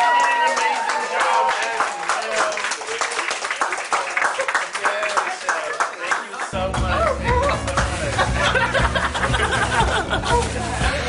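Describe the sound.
Studio audience applause at a baking competition season finale, greeting the second-place runner-up: dense, steady clapping that stays loud throughout, with a host's voice talking over it.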